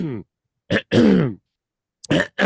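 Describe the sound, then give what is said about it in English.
A man clears his throat in a few harsh, raspy bursts separated by short silences, the longest rasp coming near the middle. “I'm clearing my own damn throat because of him.”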